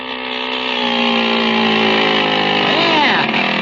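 A small motor running on a motorized bicycle, a loud, steady buzzing engine drone that swells in the first moments and then holds even, with a brief wavering in tone near the end.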